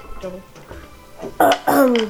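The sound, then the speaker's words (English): A man clears his throat in two loud, rasping bursts near the end, after a stretch of quieter, low vocal sounds. “Just clears his throat, finishes his drink.”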